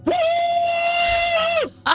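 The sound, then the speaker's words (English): A phone-in caller shouts a long "woohoo" in place of a scream: one held, steady, high-pitched note that drops away at the end, followed by a short, sharp vocal burst. “that's kind of more of a woohoo, but I'll take that too.”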